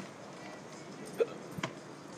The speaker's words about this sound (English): Oh, I somehow have hiccups. It's been a while since I've had hiccups.